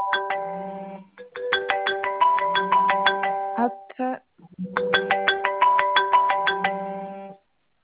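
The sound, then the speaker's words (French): A mobile phone ringtone rings unanswered, a bright melodic run of repeated chiming notes that plays in two long phrases separated by a short break. “on va faire exprès que vous ne décrochiez pas l'appel. Comme ça, je vais le laisser sonner.”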